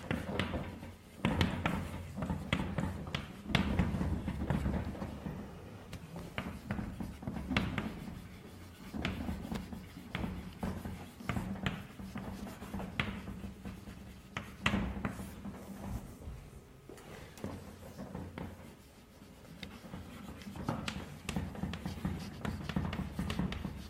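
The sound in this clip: Someone writes on a board during a mathematics lecture, making many irregular scratchy strokes and taps in uneven bursts with short pauses between them.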